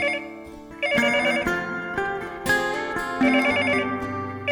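A telephone rings with a melodic electronic ringtone. A bright, repeating tonal pattern stays loud and steady from start to end, with no voices.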